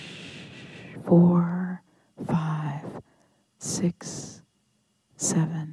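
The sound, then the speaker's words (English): Slow, airy exhalation during a guided breathing exercise, a soft whooshing breath followed by several short breathy vocal bursts separated by pauses of silence. “Exhale, whoosh”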